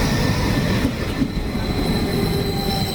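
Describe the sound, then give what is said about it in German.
Regional RE15 train arriving at a station, with loud steady rumbling of wheels on rails and high, thin squealing from the wheels running throughout. “RE15 von Meppen, weiter als RE15 nach Meppen über eine Abfahrt 9:05 Uhr. Vorsicht bei der Einfahrt.”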